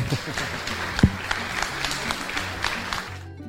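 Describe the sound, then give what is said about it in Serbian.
Audience applause at a seminar on modern fruit production at the Faculty of Agriculture in Novi Sad: a steady wash of clapping from many hands at moderate loudness, cutting off near the end. “I zaslužio je Dragan Mađovski aplauz prisutnih na savetovanju savremena proizvodnja voća.”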